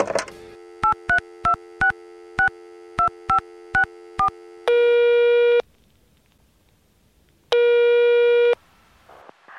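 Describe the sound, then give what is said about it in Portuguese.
Telephone voicemail tones: a quick run of short dialing beeps, followed by two long steady tones separated by a pause of silence. “Aguenta aí que a gente começa depois da caixa postal.”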